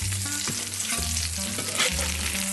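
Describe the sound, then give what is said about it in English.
Salmon fillets sear skin side down in oil and foaming butter in a hot cast iron skillet, giving a steady, loud crackling sizzle that runs unbroken throughout. “swirling it around the perimeter of both fillets so that as the butter is foaming, it can get delicious contact with every side of the fish as they sizzle in the pan.”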